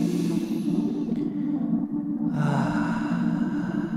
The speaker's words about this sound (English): Take a deep breath.